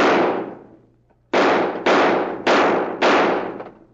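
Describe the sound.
Gunshots from guns fired at the knobs on a street sign down the block: five loud, sharp cracks, each with a decaying tail. A single shot comes first, then a pause, then four shots in a fast, even sequence.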